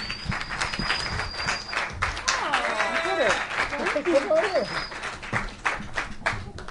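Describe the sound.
Studio audience applause welcoming a guest: a dense, steady clatter of clapping runs throughout, with whoops and whistles rising above it midway.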